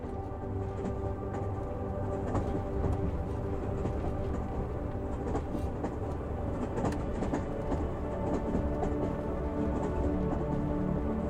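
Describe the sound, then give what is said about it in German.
A train runs as it enters a tunnel, giving a continuous, fairly soft rumble with faint rattling of the carriages and no voices. “Der Zug fährt in den Tunnel ein und eine sanfte Dunkelheit umhüllt den Wagen.”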